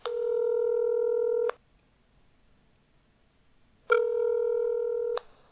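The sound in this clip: Telephone keypad tones sound as someone dials an internal call to have tea brought to a room: two long, steady, bright electronic tones, each over a second, separated by a short silent gap, with no talk.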